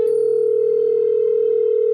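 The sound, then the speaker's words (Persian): A telephone dial tone sounds while a call is being placed: one steady, mid-pitched hum that holds at the same level without a break. “شروع کردم به کرتیس زنگ زدن که فقط اذیتش کنم.”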